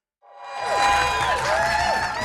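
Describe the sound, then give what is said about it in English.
Supporters, friends and family cheer and applaud at Vancouver International Airport, greeting arriving travellers. After a brief silence a loud, sustained roar begins, threaded with shrill whoops that rise and fall over steady clapping. “Cheers fill the airport as Sebastian Tao, Michael Franz, and Mary Grace Matheson are welcomed by supporters, friends, and family.”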